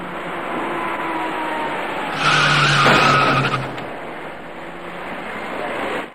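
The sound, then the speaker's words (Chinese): Tires screech as a white small passenger car brakes on a wet road and hits an electric bicycle rider turning at an intersection. Steady road noise swells into a louder skid burst midway, then eases off. “驾车由东向西行驶的白色小客司机没有注意到那位逆向而来的骑车人，在骑车人准备转弯进入路口时，躲闪不及的白色小客将他撞翻在路面上，”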